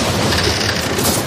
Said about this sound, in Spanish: La tormenta Juana destrozando tu antena suena así.